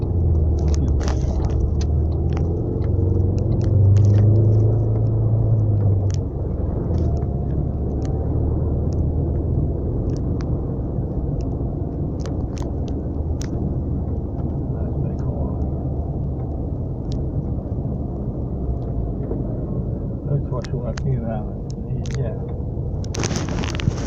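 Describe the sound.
Heavy road traffic on a road taking diverted vehicles makes a loud, continuous low rumble and roar, with a few sharper passing-vehicle swells standing out from the steady wash of noise.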